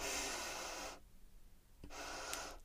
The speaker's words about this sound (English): So I'm kind of doing one right now, like really focusing on filling up my abdomen with air, diaphragmatic breathing.